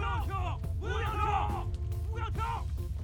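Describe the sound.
A group of soldiers shouts and bellows at a fire scene. Several loud, harsh voices overlap in rising and falling yells above a constant low rumble.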